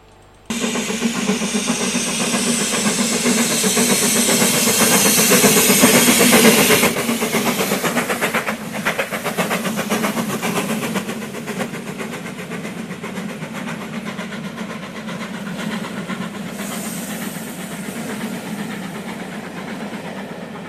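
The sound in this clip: Train noise rolls on as a steady, dense rumble, louder for the first several seconds, then settling to a slightly quieter, continuous roar with faint rhythmic clatter and no voices.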